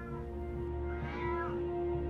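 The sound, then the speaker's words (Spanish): A cat meows once from a basement floor, a faint drawn-out cry over a steady low hum. “Escuchás el maullido del gato desde el piso del sótano.”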